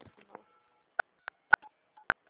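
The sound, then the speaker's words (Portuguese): Telephone keypad tones from key presses during a call: four short, sharp beeps at uneven intervals, each a bright electronic tone. Faint talk comes just before them. “Acho que tá apertando a teclinha aí.”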